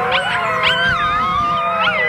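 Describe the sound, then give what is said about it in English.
Critically endangered American red wolf pups, seven weeks old and born in a zoo conservation program, howl together in several overlapping high, wavering voices that rise and fall continuously, with short yips mixed in. “At 7 weeks old, the pups have started howling, marking an important milestone.”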